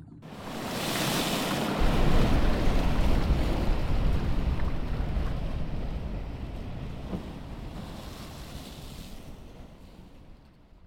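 A flood of rushing water unleashed by a magic spell: a broad, loud roaring surge that swells within the first two seconds, holds steady, and slowly fades toward the end.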